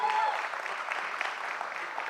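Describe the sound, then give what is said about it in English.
A church audience applauding its guests, with steady, full clapping from many hands throughout. “Come on, church, give it up to our guests.”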